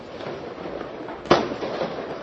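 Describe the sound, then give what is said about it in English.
One sharp firework bang, fired toward police during a street protest, cracks out over a steady background rumble and then quickly decays. “Right behind me, and as just you started talking, we're seeing fireworks. We've seen these fire towards police for much of the last 19 hours I've been standing here.”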